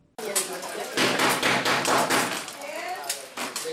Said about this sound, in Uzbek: Eshik taqillamoqda. Bu ovoz yig'ilganlar diqqatini tortadi.